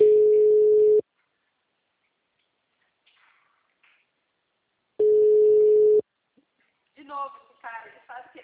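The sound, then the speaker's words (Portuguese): Telephone call ringing out: two steady one-second ringback tones separated by about four seconds of silence, each a single even pitch, followed by a voice starting to speak. “enquanto isso eu vou ligar pra ele.”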